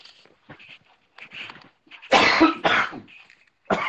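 Coughing after coffee went down the wrong pipe: a few soft throaty sounds, then three loud, harsh coughs, two close together and one after a short pause.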